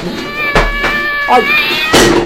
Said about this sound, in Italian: Ehi, attenzione al gatto.